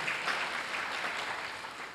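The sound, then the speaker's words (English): An audience claps for Jesus during a church sermon, a dense, even wash of many hands clapping that stays steady for the whole moment. “Can you clap your hands for Jesus, somebody?”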